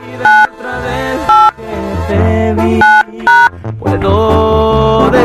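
Touch-tone beeps sound as a phone is dialed for a prank call: four short, loud tones at uneven intervals over steady background music.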